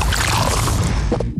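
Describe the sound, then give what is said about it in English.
Beer being poured from a 500ml Castle Lite can: a loud, steady, fizzing rush of liquid that cuts off abruptly after just over a second. “That is the sound of the new 500ml Castle Lite can.”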